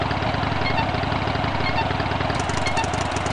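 A car engine in a driving video game idles with a continuous, loud, rough rumble that holds steady throughout, with no voices.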